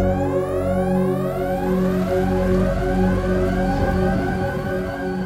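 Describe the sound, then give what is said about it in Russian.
Sirens wail under a metal airlock ceiling, several loud overlapping tones sweeping upward again and again without a break, over a steady low drone. “В этот момент под металлическим потолком шлюза завыли сирены.”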